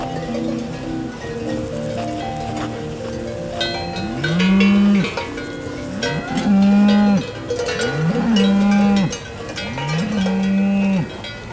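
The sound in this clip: Gascon cows lowing in a flowery meadow with short grass and horses nearby. Four long, deep moos come a couple of seconds apart over softer overlapping lowing, while cowbells clank within the herd.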